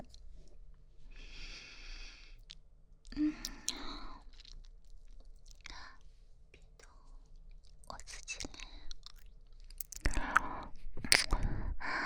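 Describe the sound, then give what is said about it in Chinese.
Someone chews sausage with soft, wet mouth sounds and occasional sharper bites and crunches, faint and close, while a person whispers between mouthfuls. “吃的什么？吃的，吃的那个香肠。”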